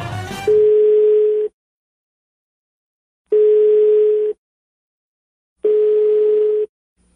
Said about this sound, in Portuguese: Vamos passar uma pegadinha pro conde. Um rapaz vai ligar, se dizendo dono de um lugar pra fazer show.